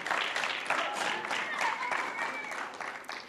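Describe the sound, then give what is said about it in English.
An audience claps to welcome a speaker to the stage, a steady wash of applause that holds at an even level, then tapers slightly at the end. “Let's welcome Mel as Mel comes up, and let's give Mel a hand.”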